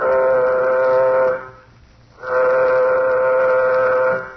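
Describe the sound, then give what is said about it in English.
Spacecraft warning signal before takeoff on a nuclear-jet ship: two long, loud, steady buzzing horn blasts, each about a second and a half, with a short pause between them and no voices. “Sound warning signal. Sound warning signal.”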